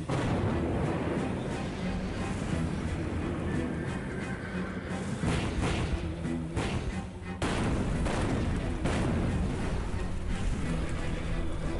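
Artillery cannon fire in a drama, during a siege of the Yerevan Citadel: a dense, unbroken roar of overlapping booms and blasts that stays loud from start to finish.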